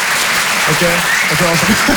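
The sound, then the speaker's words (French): Comedy show audience applauding when the comedian asks for it, a steady dense clapping crowd, with voices heard over the applause. “Qui pense par applaudissement avoir le sens de l'humour, histoire qu'on capte un peu l'ambiance, faites voir un peu, faites voir.”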